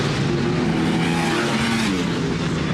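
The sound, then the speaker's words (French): A motorcycle engine revs hard on a light sport bike with a quickshifter, giving a loud, continuous high-revving howl with strong harmonic tones throughout. “qu'il y ait des montées en régime un peu coupleuse, un peu en force comme avait la RC30. Là, c'est d'une vivacité, mais c'est incroyable.”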